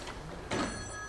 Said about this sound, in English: That's the prayer chain phone, folks.